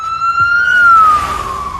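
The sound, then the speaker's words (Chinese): An ambulance siren sounds as a single loud, clear wailing tone. It climbs slowly, then sinks again across about two seconds, with a faint low rumble beneath. “你别着急啊，我已经打了120了，救护车马上就到。”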